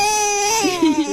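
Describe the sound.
A nine-month-old baby vocalizes during a peekaboo game played with a newspaper over an adult's face. The voice is a sustained, high, harmonic-rich cry-like sound that drops lower and wavers through its second half, heard alone.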